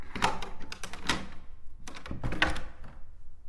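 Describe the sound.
Metallic clacks and scraping rattles of a sliding door bolt on an old door lock, a foley prop used in many Polish films, sounding in a few quick, fairly faint bursts of clunking as the bolt is worked back and forth.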